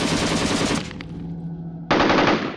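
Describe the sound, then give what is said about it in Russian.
Distant automatic gunfire rattles in two dense, rapid bursts separated by a short pause, loud and sustained, with no voices. “Издалека, оттуда, где рвануло, донеслось стрекотание, автоматная стрельба.”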